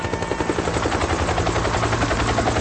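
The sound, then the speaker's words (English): Rotor chop from an inbound Huey helicopter flying in: a loud, continuous, rapid thumping beat with a dense roar behind it, steady throughout. “It's nothing like the sound of an inbound Huey.”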